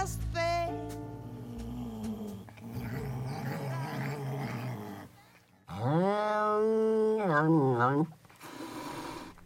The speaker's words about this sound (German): Das, was Sie da hören, ist kein knurrender Hund. Es ist eine zugegeben scheinbar etwas ärgerliche europäische Wildkatze.